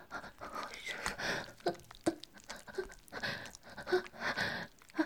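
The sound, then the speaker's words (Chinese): Heavy, uneven panting breath in quiet, irregular bursts of varying strength, some rougher and louder than others, with no talk. “你说我呼吸有点乱啊？”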